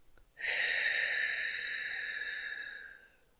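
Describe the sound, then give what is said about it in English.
A single long, slow exhale in a guided breathing exercise: a steady airy rush with a faint whistling edge. It starts abruptly and holds for about three seconds before tapering off, with no talk. “Hold it for six, two, three, four, five, six. Exhale for six.”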